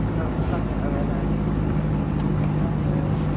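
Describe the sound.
A truck being driven to park gives a continuous low engine and road rumble. It stays steady and fairly loud throughout, with no distinct separate events.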